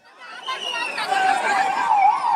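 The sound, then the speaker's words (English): Ambulance sirens wail in a town in Gujarat, India, on the evening after a suspension bridge collapsed, the wavering tones swelling steadily louder over the short stretch. “Ambulance sirens and screams filled the air in the town of Morbi Sunday evening”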